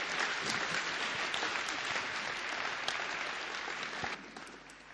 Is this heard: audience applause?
yes